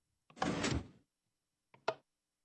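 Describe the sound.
A hidden door in a video game opens after a button is pushed. A grinding, sliding rumble lasts under a second, then a short, sharp thump follows.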